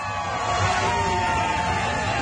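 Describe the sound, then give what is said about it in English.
A large crowd of supporters cheers and yells to send off a convoy tour leaving Victoria, BC, for the Freedom Trucker convoy protest in Ottawa. The roar is dense, loud and steady throughout, with individual shouts rising out of it. “Romana launches the tour from Victoria, BC, with a few close followers who will travel around with her. A big crowd of supporters joins to see them all off.”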